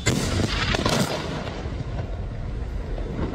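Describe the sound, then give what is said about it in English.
A military strike hits a building in the city of Tyre in southern Lebanon. A heavy, roaring blast is loudest in the first second, then settles into a sustained low, rumbling roar, with no voices. “And that was the sound of an Israeli strike on a building in one of the largest cities in the country, Tyre in the south.”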